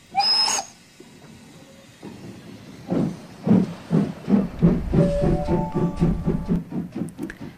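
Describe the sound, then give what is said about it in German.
Train sounds at platform 7 of Linz main railway station: a sharp hiss at the start, then loud rhythmic wheel clatter building midway, joined by thin tonal squeals near the end. “Linz Hauptbahnhof, Sie befinden sich auf Bahnsteig 7.”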